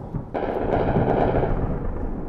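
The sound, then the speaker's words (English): Anti-aircraft fire in Tripoli, Libya, after missile strikes: a sudden onset of dense, rumbling gunfire with a heavy booming low end that holds steady to the end, with a few sharp cracks on top. “That's the sound of anti-aircraft fire in Tripoli after U.S. missiles targeted sites in Libya on Saturday.”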